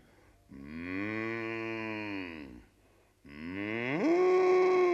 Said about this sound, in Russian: Гляди, вон коровы.